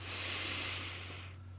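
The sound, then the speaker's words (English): A slow, deep inhaled breath: a soft, airy hiss that swells and holds for just over a second, then tapers away. It is quiet, with a low, steady hum beneath it. “I just want you to take a deep breath. Just deep breath in”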